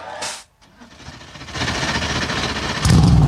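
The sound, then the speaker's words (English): NASCAR Cup Series race car engines start up at the Grant Park 165 street race in Chicago. Broad noise builds steadily, and then a deep, loud engine roar surges in at the end. “Drivers, start your engines.”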